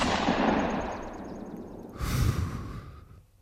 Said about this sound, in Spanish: ¿Pero qué hace, loco? Le he disparado.